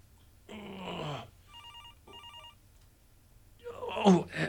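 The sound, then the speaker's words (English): A cell phone ringing on the floor: two short bursts of a trilling electronic ring, fairly faint, with breathy, strained vocal sounds before and after them. “lying in front of me, ringing incessantly. I'm still tied up, tighter this time. If I can just hit the answer button with my chin.”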